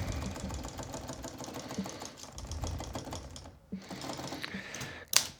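Fast typing on a computer keyboard, a dense stream of light clicks that pauses briefly, resumes and ends with one louder keystroke.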